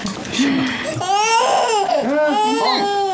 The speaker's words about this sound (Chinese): 你看你给他弄哭了吧？我儿子都替我生气。